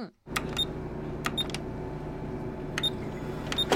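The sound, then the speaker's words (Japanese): A Xerox photocopier runs with a steady, low mechanical hum, broken by a few brief, sharp clicks and chirps that recur at intervals over the hum. “これはあれですよね、ゼロックスですかね。 What? ゼロックス、 ゼロックス、コピー機。”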